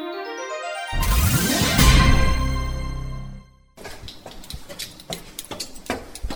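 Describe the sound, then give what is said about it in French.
Footsteps climb a narrow staircase inside the Buthiers astronomical observatory, a run of irregular, fairly loud footfalls that follows a longer, louder ringing sound. “Voilà, on monte un, escalier un peu étroit.”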